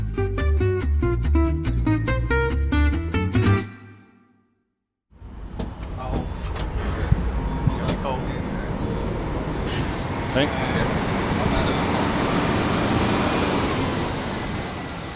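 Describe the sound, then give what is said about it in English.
A busy container port with cranes, trucks and ships at work fills the air with a dense, steady rumble and scattered clanks. It begins after a brief tonal musical passage and a moment of silence. “That noise you hear is the sound of global commerce in action. The port of Hong Kong is one of the biggest shipping junctions in the world.”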